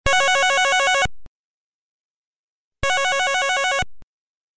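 An electronic telephone ringtone sounds on a call home: two bursts of a bright, rapidly warbling multi-tone trill, each about a second long, separated by silence.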